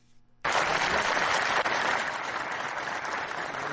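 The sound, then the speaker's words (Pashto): Applause from a large gathering at a polio vaccination meeting in Farah, Afghanistan, where loud, dense clapping bursts in after a brief quiet moment and carries on steadily. “دلته یوه لویه غونډه رابلل شوې او د فراه د سرپرست والی محمد آصف ننګ هغه خبرې په چکچکو بدرګه شوې”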